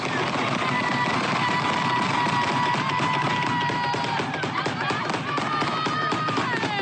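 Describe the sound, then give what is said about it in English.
Gunshots as a group of about twelve to fourteen people fire into the air, a dense, unbroken barrage of many overlapping sharp cracks and pops that never lets up. “I hope y'all can hear it there if you're watching Facebook Live.”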